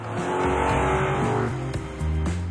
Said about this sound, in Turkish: Şu V8'in sesi inanılmaz.